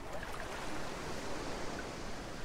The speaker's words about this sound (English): we can hear the distant sounds of the waves.